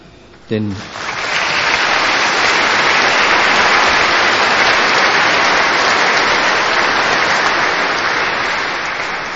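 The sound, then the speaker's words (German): Loud, dense applause for a chamber choir, organist and instrumentalists after a church concert, rising quickly and continuing as a steady wash of clapping almost to the end. “Dieser Beifall gilt natürlich auch dem Organisten und den Instrumentalisten und der Orgelspieler Herr Klopf.”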